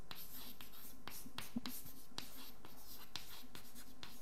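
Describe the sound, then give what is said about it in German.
Hand writing of a formula in a quantum mechanics lecture: a faint, steady run of many short scratchy strokes with brief pauses between them and no talk. “Ich schreibe das auch als Formel hin.”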